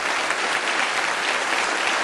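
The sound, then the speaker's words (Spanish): Applause offered in homage to fallen heroes at a public gathering in Venezuela, a dense, steady crowd clapping that stays loud and even throughout without any voices. “Pido un aplauso de vida. Pido un aplauso de homenaje.”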